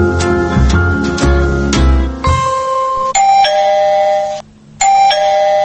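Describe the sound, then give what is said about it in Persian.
Electronic doorbell at a house gate chiming loudly and repeatedly: a quick run of melodic notes, then longer sustained ding-dong tones that step down in pitch, with a short pause before the last chime. “یک ساعت است که زنگ میزنم، کجاست که دروازه رو باز کنن؟”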